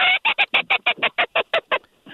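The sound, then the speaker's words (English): Blue-winged and green-winged teal call in a fast, high-pitched staccato: a rapid run of short, sharp, evenly spaced notes, loud and alone, ending with a couple of fainter notes. “And there's the typical teal call, that high-pitched, fast staccato repetition. Those teal birds. That's a blue wing, and then a green wing goes.”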